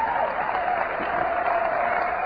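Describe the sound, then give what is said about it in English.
An audience applauding, with dense, steady clapping that holds at an even level from start to finish and no voices on top. “I trust you understand that you are applauding for yourselves.”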